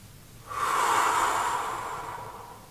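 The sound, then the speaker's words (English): One deep breath taken during a fingertip-tapping stress-relief exercise, a soft airy rush that swells quickly and then fades slowly over about two seconds, heard alone. “and take a deep breath.”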